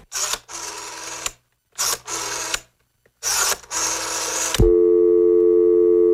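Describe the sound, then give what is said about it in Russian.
Several short, harsh bursts of noise break off, then a steady telephone tone begins while a call is placed and holds at an even, loud level to the end. “А я позвоню Добрыне.”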